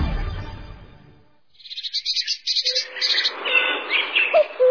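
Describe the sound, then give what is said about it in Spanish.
Wild birds chirping amid flowering guayacán trees in Loja province, Ecuador. A low rumble fades out before rapid bursts of high, bright chirps and trills begin, joined by varied calls that continue to the end. “Los sonidos de las aves. Y de la naturaleza.”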